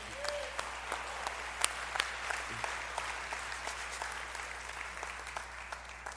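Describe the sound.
Applause as an audience welcomes a pastor to the platform: a steady crowd of clapping hands that runs the whole time, with a few sharper individual claps standing out from the even patter.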